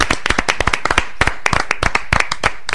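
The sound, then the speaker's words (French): Hand clapping in a studio, many sharp, loud claps in a quick, slightly uneven rhythm, with no talk over them. “Ils ont applaudi toi”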